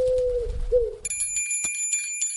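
A small bell tied to a leg rings. Bright, high metallic jingles come in several quick strikes, following an earlier low wavering tone.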